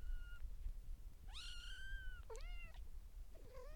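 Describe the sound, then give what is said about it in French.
A kitten and its mother cat meow: three drawn-out, high, tonal meows over a low background hum, the first rising and holding, the second dipping then leveling, the last shorter and fainter. “Donc ce qui fait que vous aurez la vraie sonorité du chaton”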